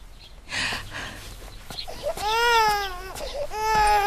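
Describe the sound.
An infant cries in two loud, wavering wails with a short pause between them, and an adult voice is heard before the crying starts.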